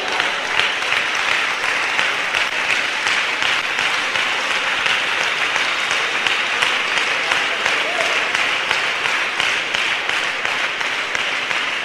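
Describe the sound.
Sustained applause from an audience at a sermon on prayer: dense, even clapping that holds at a steady, fairly loud level for the whole stretch without a clear break or fade.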